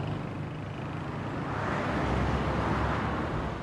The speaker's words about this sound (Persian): ماشین از اتوبان میگذره.